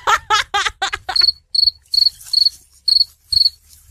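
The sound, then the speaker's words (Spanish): A cricket chirps in a steady, regular series of short, high-pitched trills, each clean and evenly spaced. They follow a few brief vocal bursts that sound like laughter. “Y ese grillo”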